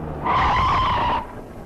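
Tire squeal during a motorcycle accident: one sustained, loud screech lasting about a second, rising over a low rumbling background and then cutting off.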